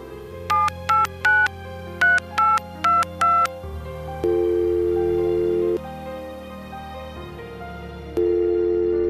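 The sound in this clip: Telephone keypad dialing tones of an outgoing call: a quick run of short, bright two-tone beeps, then longer steady ringing tones separated by pauses.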